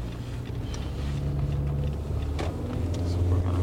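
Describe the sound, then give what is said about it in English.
A car drives through the New Center neighborhood of Detroit, giving a low, steady engine drone with soft road noise, fairly quiet throughout. “Pamela Wise drives around her neighborhood. It's called New Center, Detroit.”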